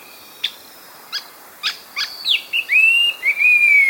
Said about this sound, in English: an Indo-Chinese green magpie. Bows and raises its long tail. Such a beautiful bird should take a bow.